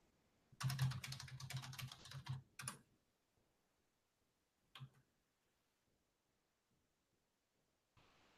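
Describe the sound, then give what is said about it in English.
Rapid keyboard typing runs in a quick, uneven burst of key clicks for about two seconds. It stops, and after a long quiet pause there are two isolated key taps. The rest is near silence. “Wait, I can't. What, can you hear me? Hang on, I'll type into the thing.”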